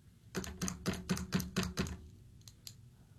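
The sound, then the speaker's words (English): Quiet tapping of a pen, seven evenly spaced taps in a steady rhythm, followed after a short pause by two fainter, sharper clicks. “It makes me nervous. It makes me tap my pen and click my pen and cause rage.”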